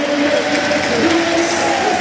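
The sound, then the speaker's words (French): Stadium crowd at Stade Marcel Picot in Nancy applauding a football player as he is substituted off: a broad, steady roar of clapping and crowd noise, even in loudness, with voices mixed in. “Ilyes Housni très largement applaudi par le stade Marcel Picot, puisqu'il a réalisé sa deuxième passe décisive”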